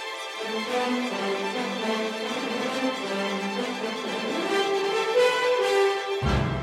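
Orchestral music plays alone, with layered sustained tones and slowly shifting chords at a steady, moderate loudness; a low rumble enters just before the end.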